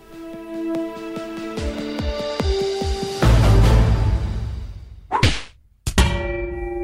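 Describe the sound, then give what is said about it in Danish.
A Danish political debate radio programme's jingle sounds a run of ringing metallic clangs and dings. A loud swelling roar follows, then sharp whooshing sweeps and a final resonant hit. “Som jinglen indikerede her, så er det blevet tid til vores faste indslag i programmet”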